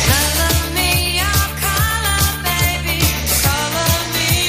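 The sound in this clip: A 1980 pop song that reached number one in the United States plays loudly, with a steady pounding drum beat, a pulsing bass line and bright layered synth and guitar chords.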